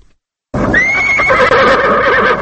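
Horses kept for Afghan president Hamid Karzai and tended by a Turkmen groom, one loud, drawn-out whinny that starts abruptly and holds a bright, wavering tone for about two seconds, with no talk.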